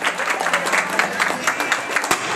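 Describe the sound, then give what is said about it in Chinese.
Wedding guests applauding warmly at a village wedding as the bride and groom enter together, a dense, steady patter of many hands clapping with small swells throughout. “一起响起热烈的掌声，有请二位共同入场了。”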